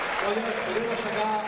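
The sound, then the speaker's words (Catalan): Crowd applause and an ovation at a castellers human-tower event: dense, steady clapping that holds loud and unbroken throughout, with voices audible within it. “parla del públic i els castellers que dediquen aquesta ovació a la seva afició.”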